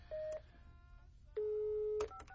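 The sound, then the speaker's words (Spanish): Touch-tone telephone keypad beeps as a number is dialed. Two sustained, steady electronic tones are separated by a pause, followed by a few brief beeps at the end. “Déjale, voy a marcar a Natalie. 5665.”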